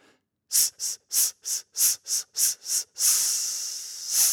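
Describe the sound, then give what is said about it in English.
Eight short, sharp exhaled breath bursts come in quick, even rhythm during a breathing exercise, followed by one longer sustained hissing exhale and then another breath near the end. “We're just going to speed things up a bit and work on those really short percussive bursts.”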